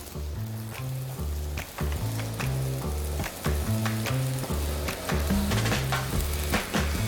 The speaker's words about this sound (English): and then we're gonna add some vegetables, some bell peppers, green, red bell peppers, some squash, and some other little vegetables to go on top, and onion.